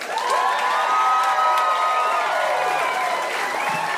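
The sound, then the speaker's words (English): An audience claps and cheers as a comedian is introduced at a comedy show. The applause stays loud and steady throughout, with scattered whoops and shouts mixed in. “Let's give a big hand to Andrew Santino.”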